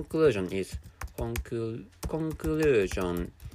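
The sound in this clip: Keys clack on a computer keyboard in scattered taps while a person speaks over them in short phrases.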